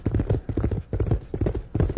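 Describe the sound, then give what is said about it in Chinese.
Horse hooves clip-clop as a horse is ridden, in a steady run of rhythmic, fairly loud beats. “现在就跟我骑马去兜风吧，改天我们再一块儿去打猎，快上马。”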